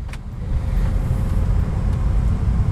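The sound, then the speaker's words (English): A car drives down the Catoctin Mountain Highway, a steady low engine drone and road rumble holding at an even loudness throughout, with no talk over it. “So let me throw this sucker in drive and make my way down the Catoctin Mountain Highway.”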